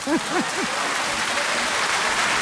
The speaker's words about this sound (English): You deserve a round of applause.